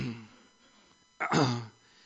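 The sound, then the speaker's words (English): An audience at a church service clears their throats on request: one short rasping burst of throat clearing after a quiet stretch of faint murmur, then silence. “Everyone cleared their throat?”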